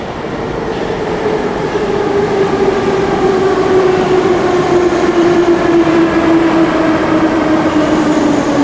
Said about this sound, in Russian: Ой, поезд идет!